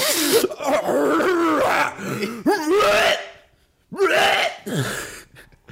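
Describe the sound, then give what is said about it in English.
Loud throat clearing in a couple of harsh, rasping, drawn-out voiced bursts, separated by a brief pause, heard alone. “Sorry, I'm just clearing my throat.”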